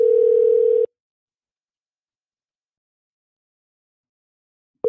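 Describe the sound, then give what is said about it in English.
A telephone ringback tone sounds as a call rings through toward voicemail: one steady, low tone lasting under a second, then a long silence, with the next tone just starting at the very end. “Ring all the way to voicemail.”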